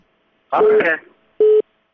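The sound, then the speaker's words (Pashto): A short burst of voice, then one clear, steady beep of a telephone busy tone as a call disconnects. “فکر کوم تلیفون یې قطع شو”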